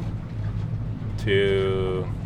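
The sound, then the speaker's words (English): A boat heading out from an Alaskan village toward the coastal plain, its engine a steady, low, droning rumble that holds constant throughout. “I'm sitting next to Vabjorn in his boat, heading out from the village to visit the coastal plain.”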